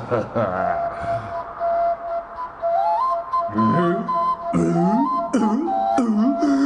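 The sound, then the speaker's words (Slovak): A small pipe whistles one sustained, steady note that steps upward partway through. Then people start talking, and short whistled phrases come between and under their voices. “Dovol mi, aby som ti na tejto píšťalke ešte aspoň raz zapískal.”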